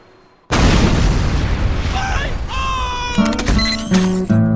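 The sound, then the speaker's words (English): Gunfire from a heavy-caliber tripod-mounted gun: after a brief quiet, a loud, sustained booming roar of firing carries on, with ringing, whining metallic tones rising over it toward the end. “This heavy caliber tripod mounted little old number designed by me. Built by me. And you best hope not pointed at you.”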